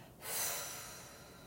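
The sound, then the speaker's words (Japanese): A slow, deep exhale during a guided deep-breathing exercise: one long, soft, airy breath that swells quickly and then fades gradually, faint and alone. “今の自分の体の中に残っている空気を吐き出して”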